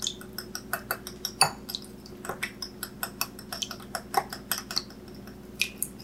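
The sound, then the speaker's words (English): Eggs whisked in a bowl with two teaspoons of maple extract added: many quick, evenly spaced clinks of the whisk against the bowl keep a steady rhythm throughout, with no talking. “we're going to add 2 teaspoons of maple extract to the eggs. And we're going to whisk.”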